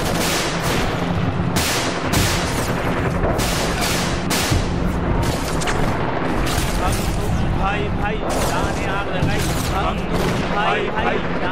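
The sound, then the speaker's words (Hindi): Tear gas launchers fire at a protest, with many sharp, loud bangs in quick succession over a dense, constant roar of crowd chanting. “आंसू gas fire.”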